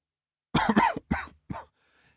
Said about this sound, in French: Il s'arrêta, pris d'une quinte de toux.